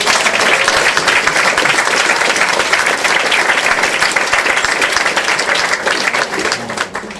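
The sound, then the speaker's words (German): Loud audience applause at a live reading stage show, a dense, even wall of clapping that holds steady for several seconds with little change in volume. “Riesenapplaus bitte für Doc Michael Bitt.”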